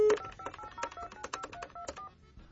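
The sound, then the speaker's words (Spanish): A telephone number is dialed again after a call was cut off: a quick series of many touch-tone beeps in an uneven rhythm, with no voices. “Sale, estamos marcando de nueva cuenta.”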